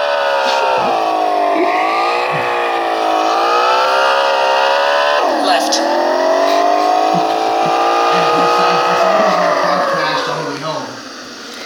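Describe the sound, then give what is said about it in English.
A car engine drones continuously while driving, its pitch climbing and easing repeatedly, with one sudden drop and fresh climb partway through, before fading slightly at the end. “All right, guys, let's drive back home. Easy left.”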